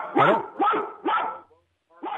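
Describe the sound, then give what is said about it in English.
A dog barks over a caller's phone line: four sharp, harmonic barks. The first three come in quick, even succession and the fourth follows a short pause, with no talk over them. “I can't understand the dog.”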